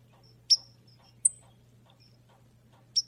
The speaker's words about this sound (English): Listen to the birds sing.